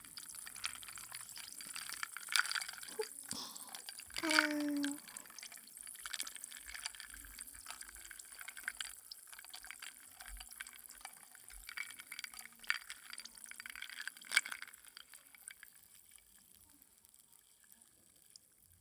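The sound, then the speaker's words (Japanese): Ice cubes clinking against a glass as a drink is stirred, with a few bright clinks over soft swirling liquid sounds, one clink standing out louder than the rest. “氷の音、大事でしたでしょ。 涼しくなる音”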